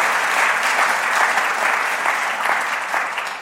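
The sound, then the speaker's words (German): Audience applause at a media award ceremony: a steady, dense wash of many hands clapping that holds without a break for the whole stretch. “Applaus”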